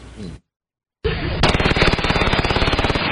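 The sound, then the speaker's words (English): Rapid gunfire recorded by a doorbell surveillance camera at night: after a short noise and a second of silence, a dense, loud burst of many shots follows in fast, steady succession. “A barrage of gunfire just after 1 Saturday morning. All caught on doorbell surveillance camera.”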